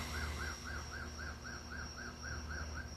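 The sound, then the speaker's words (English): A neighbor's alarm going off: a faint electronic chirp that repeats many times in a fast, even rhythm, each note arching up and down in pitch over a low background hum. “hear my neighbor's alarm. That's them calling the police on me.”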